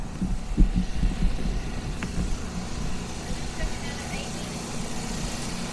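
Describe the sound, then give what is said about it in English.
Trucks and trailer rigs run outside, making a steady low engine rumble with an uneven, throbbing drone that stays at a moderate level throughout. “Trailers and rigs going on out here.”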